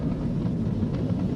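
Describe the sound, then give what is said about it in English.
A Falcon 9 rocket carrying a crewed Dragon capsule roars during launch, about thirty seconds after liftoff, as a steady, dense low rumble with no breaks. “Flying crew on board Dragon and Falcon 9, and look at them go!”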